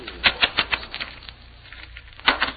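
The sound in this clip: Playing cards are cut and dealt for a poker game, a rapid run of crisp flicks and light slaps, then a quieter stretch, then another short flurry of snaps.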